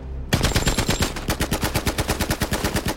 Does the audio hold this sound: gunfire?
yes

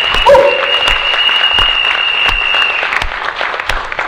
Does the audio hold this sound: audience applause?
yes

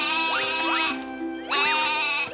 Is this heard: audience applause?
no

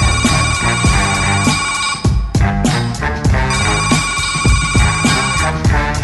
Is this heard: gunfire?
no

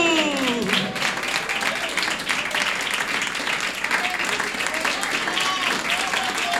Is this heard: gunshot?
no

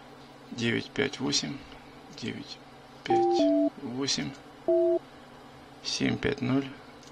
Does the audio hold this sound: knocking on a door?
no

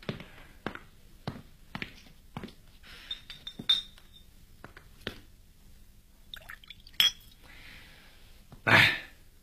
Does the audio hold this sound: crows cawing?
no

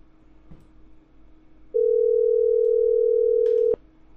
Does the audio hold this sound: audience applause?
no

